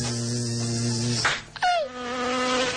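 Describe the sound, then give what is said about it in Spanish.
A fly's steady high buzzing breaks off with a sharp thump, followed by a brief falling whine, and then the buzzing starts again. “No podemos verle los ojos, pero sí que podemos oír lo que hace la mosca y lo que dice la mosca cuando la matan. Vamos a hacerlo.”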